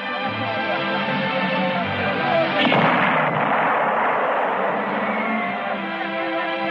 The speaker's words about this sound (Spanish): Ha sido un cañonazo. O el corazón que me late. Es el nuevo cañón 77. Debe de estar a unos 50 kilómetros.